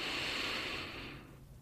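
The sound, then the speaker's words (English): A deep breath is drawn in from the abdomen, a long, steady, airy inhale that holds level and then fades away toward the end. “Take a deep breath in from your abdomen area.”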